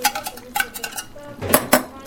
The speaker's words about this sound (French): Mélangez le tout et laissez reposer.